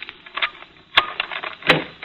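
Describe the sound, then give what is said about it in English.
A skeleton key turning in a door lock gives two sharp metallic clicks, spaced under a second apart, over faint scraping and rattling. “we brought our skeleton keys, did we? Yeah. Standard A1 detective agency equipment. One of these should do it.”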